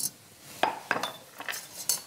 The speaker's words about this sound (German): So, Deckel drauf.